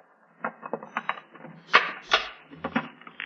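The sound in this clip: A key unlocks and opens a trunk: a quiet series of small metallic clicks and knocks, then a few heavier clunks as the lid comes free.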